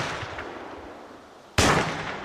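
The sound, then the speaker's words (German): A single pistol shot fired at a beech tree about five metres away cracks out sharply and loudly after a stretch of low background hiss, then trails off slowly. “Ich ziele auf eine Buche, die 5 Meter entfernt steht, und drücke ab.”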